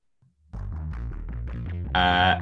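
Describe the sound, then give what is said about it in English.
A bass synthesizer plays a data sonification, its pitch tracking wind readings as short notes step rapidly up and down in a steady pulsing run, growing brighter and louder near the end. “So in this example, it's a bass synthesizer, and the pitch of the bass goes higher to follow a data series of wind. So the pitch is higher when the wind is higher,”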